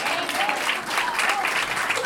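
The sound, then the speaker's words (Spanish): An audience applauds steadily at the presentation of a human rights report in Barcelona, making a full, continuous wash of clapping. Voices rise above it now and then. “un aplauso, otro aplauso para Ana, por favor.”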